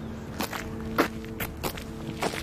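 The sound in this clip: Footsteps walk up a windy, drizzly street in an even rhythm of several steps, faint against a steady background hiss.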